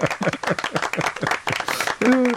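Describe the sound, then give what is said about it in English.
A studio audience applauding a contestant: brisk, uneven clapping from a crowd, with voices mixed in, ending as someone speaks. “A round of applause for John.”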